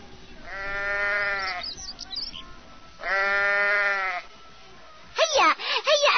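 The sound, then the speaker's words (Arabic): A sheep being readied for the Eid sacrifice bleats twice, each a long, wavering, nasal cry separated by a short pause, followed by a brief, higher vocal sound. “جدي أسرع لنذبح خروف العيد.”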